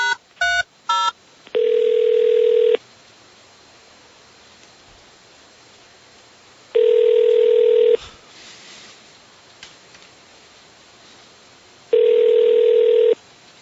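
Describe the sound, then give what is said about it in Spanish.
Telephone call to a car workshop going unanswered: a quick run of keypad dialing tones, then three long ringing bursts separated by long pauses of faint hiss. “No contestan. Estamos llamando a un taller.”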